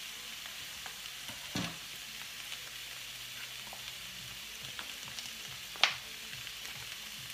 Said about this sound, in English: So, like we said, vegetables are cooking on the side. We're going to make room in the middle for our salmon.